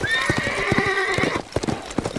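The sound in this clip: Hooves clip-clop and a horse whinnies as a dun gelding in a ravine, freed of saddle and bridle, moves off. A high, wavering neigh rings over many quick hoof strikes, then the hooves patter on alone.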